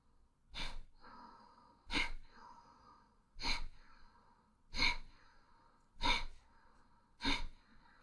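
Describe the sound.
Bhastrika pranayama, a forceful breathing exercise with both inhale and exhale active: six strong, breathy rushes of air at an even rhythm, each a short loud burst followed by a softer tail.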